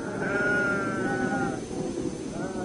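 A sheep bleats in a long, wavering, strongly voiced cry that holds for over a second. A shorter, higher call follows, both fairly loud over a steady background.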